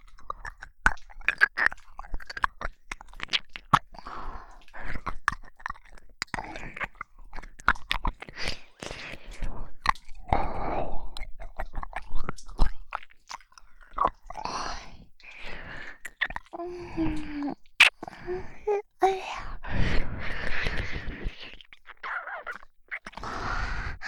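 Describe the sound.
Wet licking and mouth sounds close at an ear, with many irregular smacks, clicks and squishes alongside soft whispering breaths.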